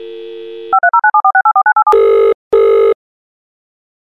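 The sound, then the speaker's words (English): A telephone call being placed by speed dial: a steady dial tone, then a rapid run of touch-tone dialing beeps, followed by two long buzzy ringing tones and the start of a third, loud and with no talk. “You know what? I've already got Amy on speed dial.”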